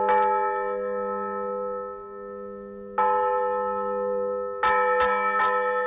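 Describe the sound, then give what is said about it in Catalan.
A village church bell rings again after 80 years in a Segarra hamlet of 150 residents: rich, sustained metallic tolling with long ringing overtones and several fresh strikes, the last few coming in quick succession. “Feia 80 anys que aquesta campana va sonar per última vegada en aquest poblet de 150 habitants de la Segarra.”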